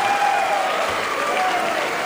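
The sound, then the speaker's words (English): Applause from a bluegrass concert audience: a steady wash of clapping that holds at an even level for the whole stretch, with no speech over it. “Thank you for the nice round of applause. I really appreciate that.”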